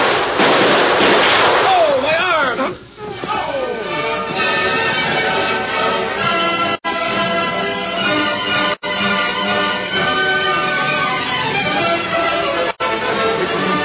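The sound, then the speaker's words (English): A few sharp gunshots crack out during a shootout in a western drama, with descending whining sweeps early on and a continuous busy background under the loud reports. “Get out your gun and start blasting.”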